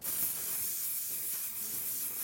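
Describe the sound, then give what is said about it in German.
Hairspray sprayed from a can onto a pair of stapled-shut underpants: one steady, bright hiss that runs unbroken for the whole moment, with no talking. “Ich habe doch hier irgendwo Haarspray mitgenommen. Dann würde ich sagen, wir probieren das aus. Wir sprühen deine Unterhose fett ein.”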